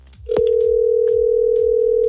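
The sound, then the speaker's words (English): A telephone dial tone comes in with a click when the line opens before a number is dialed, then holds as a loud, steady, unbroken hum over a repeating low rhythmic thump in the background. “Dialing this now.”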